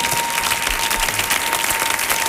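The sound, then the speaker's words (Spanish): Applause for a singer of Cuban country music: a dense, steady wash of many hands clapping from a crowd. It stays loud and continuous throughout, with no pauses. “¿Y no le vaya a dar un aplauso a este hombre?”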